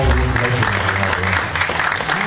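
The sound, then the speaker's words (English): An audience gives a round of applause: dense, continuous clapping at a steady, fairly loud level throughout, with no clear break. “Can we just give John a round of applause?”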